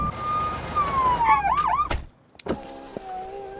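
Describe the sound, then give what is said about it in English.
A police car siren wails and falls in pitch, breaks into a couple of quick yelps, then cuts off abruptly, followed by quieter mechanical sounds. “Oh, shit, the cops! Oh, they're gonna breathalyze me for sure!”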